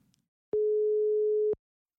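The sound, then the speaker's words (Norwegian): A single steady telephone ringback tone of an outgoing call sounds alone for about one second, a clean, even mid-pitched hum that starts and stops abruptly after a brief faint rustle. “nå skal vi ringe til Fredrik Lindbo, skal vi høre litt hva som siste nytt på flaggfronten”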